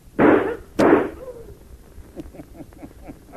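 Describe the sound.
Two sharp, loud gunshots in a radio drama, about half a second apart, followed by a quieter stretch with faint scattered clicks.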